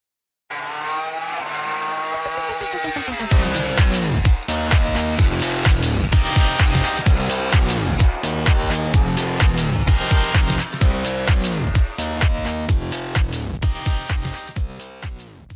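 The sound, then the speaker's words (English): A show jingle built from racing engine sounds: a loud, continuous stretch of roaring race vehicles passing with swooping engine pitch and squealing tires, with no talk. “We're just going to chuck the jingle on, and we'll be right back.”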